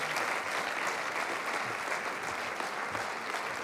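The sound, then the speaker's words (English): A church audience claps in dense, steady applause, a soft, even patter of many hands that continues without pause. “I know you don't know what you're clapping for, but clap ahead of time.”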